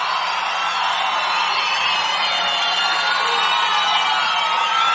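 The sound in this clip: A crowd cheers and whoops for Teodoro Sampaio on a radio station. The noise is a steady, even roar of many voices with no pauses and no speech over it.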